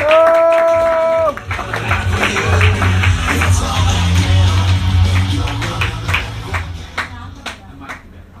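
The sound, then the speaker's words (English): Comedy club audience applause breaks out after a short sustained tone, with many hands clapping loudly in a dense wash that holds steady before thinning and fading toward the end. “Guys, make some noise for Michael Patrick!”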